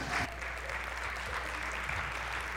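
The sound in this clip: Audience applause: a steady wash of many hands clapping that holds at an even loudness for the whole stretch, with no break or clear single claps.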